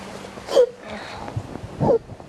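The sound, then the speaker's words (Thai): A young child sobbing as they calm down after crying, with two short catching wails separated by quieter breathy sniffles and gasps. “ลูกสะอื้น”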